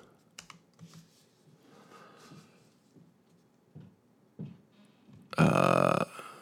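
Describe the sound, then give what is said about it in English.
Someone types on a computer keyboard in sparse, faint bursts of clicking keystrokes. Near the end comes one loud, harsh, burp-like burst. “I just want to know, I got to type in”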